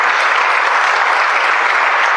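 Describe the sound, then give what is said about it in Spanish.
An audience at a Spanish-language church service claps in steady, continuous applause, a dense even patter of many hands held at constant loudness throughout. “Den un aplauso al que vive para siempre.”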